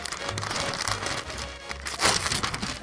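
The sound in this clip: A paper betting ticket from a horse race is torn up, giving a steady, dense rustling and crinkling with no clear pauses, over a low hum.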